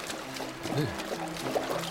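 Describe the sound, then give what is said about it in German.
Heavy rain pours down in a dense, steady wash of hissing noise that stays even throughout, with a watery, trickling texture. “Nicht nur ihre Füße wurden jetzt nass, denn es begann in Strömen zu regnen.”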